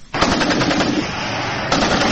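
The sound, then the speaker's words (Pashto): Heavy weapons gunfire in renewed border fighting with the Taliban in Kurram on the Pakistan-Afghanistan border: a loud, sustained, dense rattle of rapid shots with no break, swelling slightly near the end, with no voices. “د غټو وسلو دا ډزې په کورما کې پر پاک افغان پوله د دوپرزیو او بندخو له طالبانو سره یو ځل بیا د شروع شوې جګړې دي.”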